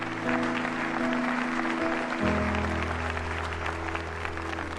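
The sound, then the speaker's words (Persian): Wedding guests break into applause just after the couple are pronounced husband and wife: dense, steady clapping from many hands that carries on for the whole few seconds without a break. “مهمان ها دست می زند.”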